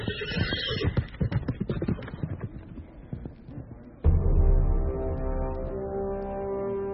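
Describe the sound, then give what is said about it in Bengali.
Horse hooves clop in a quick, uneven run of beats as a rider mounts a horse outside a cottage. After about four seconds a loud, sustained harmonic whinny-like call takes over and trails off. “জীবসিদ্ধি কুটির থেকে বেরিয়ে ঘোড়ায় চড়ে বসল।”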